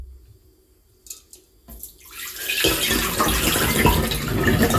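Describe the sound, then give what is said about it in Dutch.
Water poured off boiled eggs: a few faint clicks and knocks, then a steady splashing rush of pouring water that swells and runs on loudly to the end, with no talk. “Het afgieten van de gekookte eitjes.”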